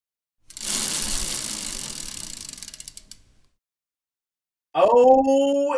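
A prize wheel spins with a rapid, loud ratcheting clatter of clicks that runs for about three seconds and gradually fades away.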